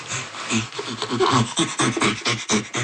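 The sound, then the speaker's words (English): Rapid, rhythmic panting, each inhale and exhale carrying a voiced, breathy tone. Many quick breaths follow one another in an even, steady pulse at moderate loudness, with no words spoken. “panting comes from this inhalation and exhalation. And while inhaling, producing the sound, and while exhaling, producing the sound.”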